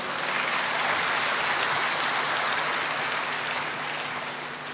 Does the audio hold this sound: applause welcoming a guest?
yes